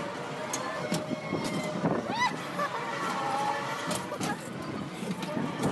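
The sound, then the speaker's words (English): Amusement park ride in motion, a big looping ride with a caged seat, gives a loud, steady mechanical rumble and rushing wind throughout, with voices over the din. “Okay, we're like going, we've gone upside down like a million times now.”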